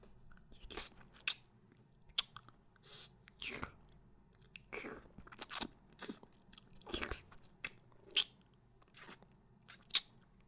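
Someone chews a meat bun with faint, soft, moist bites and crunches. Many irregular chewing sounds are spread throughout, in a quiet setting.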